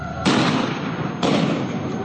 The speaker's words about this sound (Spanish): Disparos hacia los manifestantes.